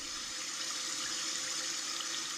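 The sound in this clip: A babbling brook gives a continuous, faint rush of water. The splashing wash holds steady with no pauses or distinct events.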